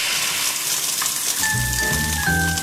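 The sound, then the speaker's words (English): Sizzle of an egg frying: a steady crackling hiss that runs throughout, joined in the second half by a few sustained, bright musical tones. “This Halloween, remember, if you throw an egg, you're gonna fry.”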